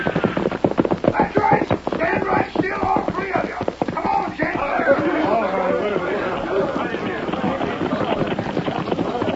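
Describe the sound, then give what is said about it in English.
Horses of a tired posse, tied in front of a cafe, clip-clop and stamp in a quick, busy patter of hoof strikes that thins out partway through, with voices talking over them. “they saw a group of horses tied in front of the cafe. Look, Kemosabe. Something's happened. That posse. They have been riding a long time. Look how tired they are.”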